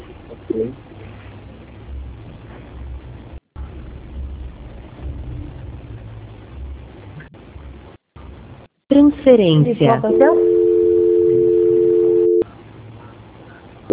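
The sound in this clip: Telephone line tone while a call is being transferred. Narrowband phone-line talk and a brief garbled burst come first, then a loud, steady, unbroken tone of about three seconds.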